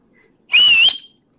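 A person whistles once, a short, bright, high note lasting about half a second. It stands alone against near silence.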